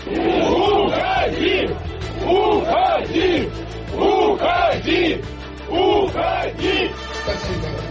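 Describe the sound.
A large crowd shouts in loud, rhythmic bursts, the same short chanted call repeated again and again with brief dips between, filling the whole clip.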